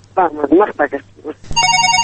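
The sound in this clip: A telephone rings with a rapidly pulsing electronic tone, bright and steady, starting right after a stretch of speech.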